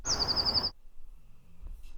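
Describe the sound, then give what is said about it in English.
A wren's slower trill: a short, high run of evenly spaced repeated notes lasting under a second, then near silence. “Okay, let's just listen to the slower trill.”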